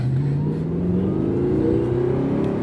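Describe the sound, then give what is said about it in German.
Car engine accelerating in second gear on a manual-gearbox driving lesson, a steady droning hum whose pitch climbs smoothly as the revs build, continuous and fairly loud with no talk. “Und jetzt im zweiten ganz normal schon immer langsam kommen lassen, die Kupplung. Es war schon etwas zu schnell, aber zweiten. Und dann geben wir mal Gas.”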